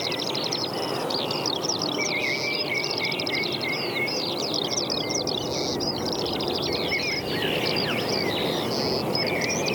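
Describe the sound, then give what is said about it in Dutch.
Great spotted woodpecker calls sit within a busy stretch of birdsong. Many sharp, high chirps and short calls overlap continuously for about ten seconds at an even, moderate level. “Grote bonte specht.”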